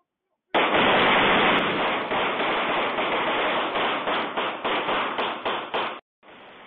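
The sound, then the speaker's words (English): Gunfire recorded on video during a gang shootout in Oakland, California: a dense, sustained crackle of many rapid shots that breaks into distinct quick bursts toward the end, then stops abruptly, leaving faint noise. “This is video showing one. Well, these people are absolutely shooting very close to each other.”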